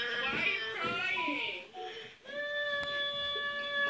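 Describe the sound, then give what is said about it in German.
Wavering, high-pitched crying and sobbing from a taxi's radio, with sliding, quavering tones that give way to a steadier held tone; fairly quiet overall. “Ich schlage sie jetzt und dann werden sie heulen. Nein! Sie, sie fangen schon an!”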